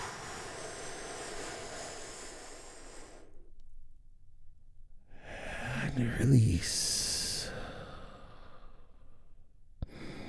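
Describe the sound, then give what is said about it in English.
A great, deep breath drawn in slowly during a guided relaxation, a long, soft airy rush that swells and fades after a brief pause following a voice. “And we begin this by taking a great, big, deep, healing breath with me right now.”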